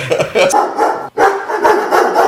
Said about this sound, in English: I had to take a pause there because we had dogs in stereo